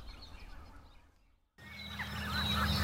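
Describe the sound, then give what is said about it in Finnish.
Geese calling on a spring morning, harsh honking notes that come in loud after a brief quiet stretch, mixed with other birdsong. “hanhia toki on äänessä”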